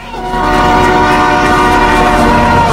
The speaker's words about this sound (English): Art hurls himself at Simon, pulling him out of the train's path as it clatters past at speed